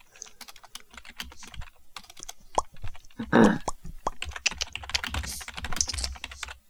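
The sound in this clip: Fast typing on a computer keyboard while someone writes a comedy sketch. Many quick, irregular clicks and taps continue throughout at a moderate level, with a brief heavier clatter midway.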